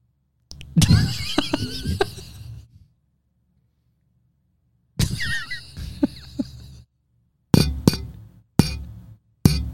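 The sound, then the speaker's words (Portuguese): A Coke drink container knocks against a microphone, producing hard glassy clinks and thuds in separate bursts: two longer rattling stretches, then a few sharp, loud single hits near the end, with silence between. “Só bati um negócio de coca no meu microfone, tá louco?”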